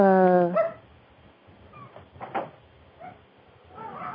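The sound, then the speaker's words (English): A dog barking behind a phone call, with a drawn-out bark-whine at the start and then a few fainter yips, amid faint talk. “I guess you can hear him barking now.”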